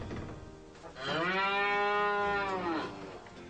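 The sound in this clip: A cow moos in a stable. There is one long, low, steady moo lasting about two seconds, heard alone without talk, with faint background noise before and after it.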